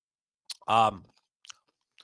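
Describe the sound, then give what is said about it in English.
Crunchy chewing of Nut Harvest deluxe mixed nuts: a few brief, sharp crunches separated by quiet gaps, with a short voiced murmur between them. “These mixed nuts are delicious. And I tell you, they're the deluxe mixed nuts by Nut Harvest.”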